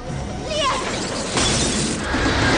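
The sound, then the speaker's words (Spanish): A streetlamp bulb bursts and shatters at night beside railway tracks at an overpass, a sudden bright crash of breaking glass over a constant, loud, noisy backdrop. “Estalla la lámpara de una farola.”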